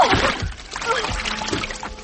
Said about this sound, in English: There shouldn't be water here. So where am I? Tide is coming.